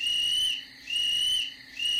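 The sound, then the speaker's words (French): A person whistles three times: three sustained, high-pitched notes, each about half a second long, separated by short pauses. No one speaks. “Le soir venu, Louis siffla 3 fois.”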